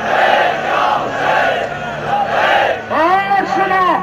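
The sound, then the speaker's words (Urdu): Mourners at a cleric's funeral in Pakistan chant protest slogans demanding the arrest of his killers. Their loud, rhythmic voices rise and fall together, and a sharp, strongly voiced chant bursts out near the end. “شرکا نے واقعے کو انتظامیہ کی نااہلی قرار دیتے ہوئے قاتلوں کو گرفتار کرنے کا مطالبہ کیا اور نعرے بازی کی۔”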